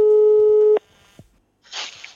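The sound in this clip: A telephone tone sounds as a call is placed: one steady, buzzing tone that cuts off abruptly, then a couple of soft clicks and a short, noisy rustling burst.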